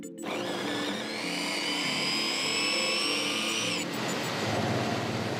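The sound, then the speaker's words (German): A small machine slices sugar beets in a demonstration at Technorama Winterthur, giving a loud, steady motorized whine with bright tonal overtones. Partway through, the whine cuts out and a rougher grinding noise continues. “Auch sie schneidet Rüben, aber nur eine. Im Technorama in Winterthur zeigt sie uns im Kleinen, was mit den Rübenschnitzeln passiert.”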